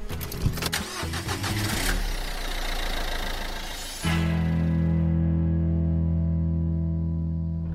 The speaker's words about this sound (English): We're just driving back from Dean's Marsh